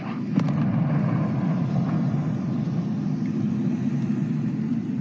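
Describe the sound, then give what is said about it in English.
An Israeli airstrike hitting a building near the seafront of Tyre, Lebanon, heard as a deep, sustained rumbling roar with a faint sharp crack near the start and no voices. “This is the moment an Israeli airstrike hit a building not far from Tyre's seafront on Tuesday.”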